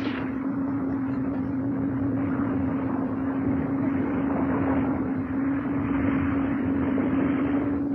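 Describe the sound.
The engines of a war aircraft start up as a loud, steady droning roar. A constant low tonal hum runs through it, and the sound stays unchanged for the whole clip.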